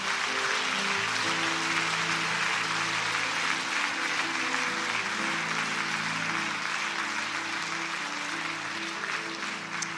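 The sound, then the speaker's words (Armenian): A loud crowd applauds at an annual church conference, a dense, continuous roar of clapping that stays strong for the full ten seconds with only a slight easing near the end. “Փառք Հիսուսին սիրելիներս, եկեք բարձր ծափարենք.”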